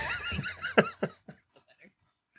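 A pony whinnies loudly with a high, harmonic neigh that breaks into a few shuddering, descending pulses, each fainter than the last, before trailing off into quiet.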